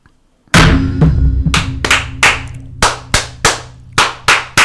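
Unison clapping from a group of brothers performing a ritual fire toast: a dense, loud opening burst, then a steady series of sharp, evenly spaced claps.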